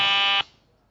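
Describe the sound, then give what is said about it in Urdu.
A quiz contestant's buzzer sounds once as a short, harsh, bright tone lasting under half a second, then cuts off abruptly into a faint fading tail, with no voices. “پھر بہت close بیل بجی ہے, فقط ایک لفظ سنتے ہیں بیل بجا دیتے ہیں.”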